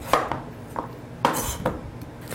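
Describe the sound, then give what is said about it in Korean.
A knife chopping vegetables for soup: a few sharp, separate knocks on a board in an irregular rhythm, each with a light clatter, and no talk over them. “모든 야채들을 쉽게 익을 수 있도록 한번 썰어주세요.”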